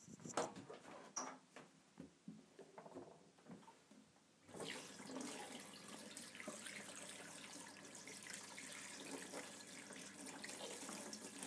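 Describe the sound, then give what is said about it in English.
Tap water runs into a bathroom sink while dough is washed off hands. A few quiet knocks and clatters come first, then a steady, full rush of water continues to the end. “I think I need to wash my hands in the bathroom, actually. Covered in dough.”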